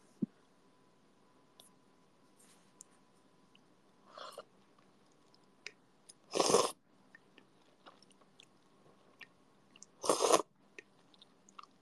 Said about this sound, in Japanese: まずは、一口いただきたいと思います。